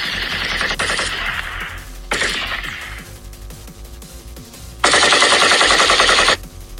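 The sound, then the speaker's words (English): Gunshots fired at the Federal University of Technology, Owerri, in Imo State. Three loud bursts of rapid, crackling gunfire come in quick succession, with the last burst the longest and loudest. “that's not a video game. I'm not playing any video games right here on air. That is, in fact, gun shots fired.”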